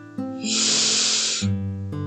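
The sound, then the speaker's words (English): A deep inhale during a guided breathing exercise: a long, airy hiss that swells and holds for about a second over steady, sustained background tones. “As we conclude our breath work together, let's take one final breath in”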